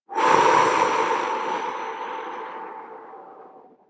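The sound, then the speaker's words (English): A person takes one deep, slow breath during a guided breathing exercise. A soft airy rush starts strongly and fades gradually over several seconds, with no other sound. “We could take a breath in to the blue and hold as it turns yellow”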